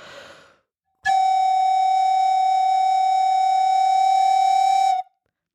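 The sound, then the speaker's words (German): Two close pitched tones held together in a contemporary music piece give a steady, bright, high ringing like tinnitus. The ringing lasts about four seconds, clean and unwavering, and follows a brief faint noise. “Wenn ich jetzt zwei Töne gleichzeitig spiele, die nur einen minimalen Tonabstand voneinander entfernt sind, und so schreibt er ganz oft am Anfang dieses Stücks Tinnitus, dann klingt das schon ein bisschen nach Tinnitus.”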